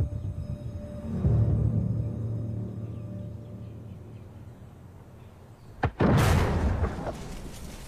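A castle gun at Edinburgh Castle fires a single loud blast, a sharp crack bursting into a roaring boom that slowly dies away. A quieter stretch of low background rumble comes before it.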